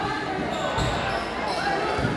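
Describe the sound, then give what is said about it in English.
A basketball is dribbled on court during a high school game between the Cardinal Comets and the Sigourney Savages, in the closing seconds. Bounces sound under steady crowd noise and talk. “Fifteen seconds left. They dribble it.”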